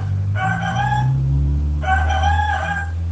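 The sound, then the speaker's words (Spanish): An agitated rooster crowing twice, two drawn-out, bright crows separated by a short pause, with a low steady hum underneath. “el alegre grupito se encontró con un gallo que corría alborotado de un lado a otro.”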